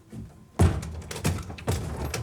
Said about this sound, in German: Und mach die Tür doch am Ende auf.